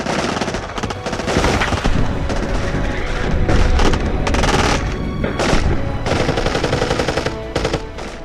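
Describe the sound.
Gunfire in a wartime battle scene of a radio drama: loud, dense machine-gun bursts and booming shots pour out almost without a break, harsh and sustained throughout, with no talk over them.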